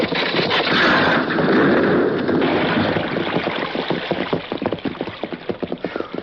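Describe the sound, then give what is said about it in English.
A heavily loaded horse-drawn wagon rushes past, starting as a loud, dense rumbling roar and breaking into a rapid, pulsing clatter of hooves and wheels as it goes by. “Hey, there's a wagon up there. Something's wrong. Wagon heavy loaded. Look at it come, Tonto.”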